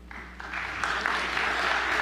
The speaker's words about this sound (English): don't know that I need an applause.